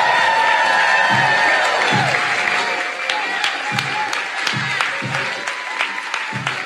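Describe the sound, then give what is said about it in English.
A studio audience cheers and applauds to welcome a guest, a loud continuous roar of many hands clapping with sharp whoops and shouts rising above it throughout. “y'all need to get like hype up in here and make some noise. Y'all want to make some noise? Let's give an extremely warm welcome to our guest, Vic Barrett.”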